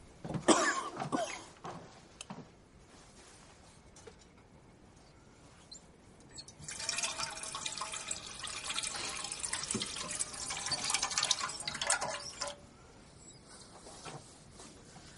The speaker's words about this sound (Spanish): La joven se acerca al fregadero y llena un cazo con agua.